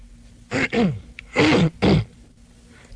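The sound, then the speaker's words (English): A man clearing his throat: four short, harsh, rasping bursts in two quick pairs, fairly loud and alone over a quiet background hum. “He always cleared his throat that way.”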